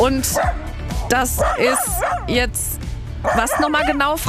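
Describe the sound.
A dog in a bicycle trailer yips and barks: many quick, high, whiny yelps in rapid bursts, with people talking over them.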